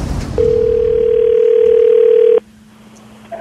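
A telephone dial tone as a call begins: one steady, loud, unbroken tone that holds for about two seconds, then cuts off abruptly into near silence.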